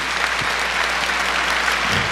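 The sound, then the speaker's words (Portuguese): A church audience applauds during a Catholic service: continuous, fairly loud clapping at a steady level, with a few soft low thumps beneath it. “Pode aplaudir esse irmão, essa irmã.”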